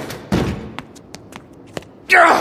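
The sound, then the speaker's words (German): A body slams against a penthouse door: one heavy thud, then a few faint knocks, and a loud, noisy crash near the end. “Er springt gegen die Tür”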